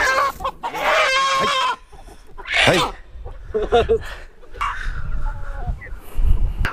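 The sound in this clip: A chicken wearing a leg band clucks and squawks in several sharp, bright calls, some close to a crow, while people talk around it.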